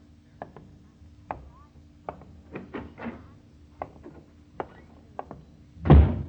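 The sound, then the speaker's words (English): Heavy footsteps on a porch: a series of dull, thudding steps at an uneven pace, mostly moderate in loudness, ending in a noticeably louder thump. “Tonight, the steps are heavier than usual.”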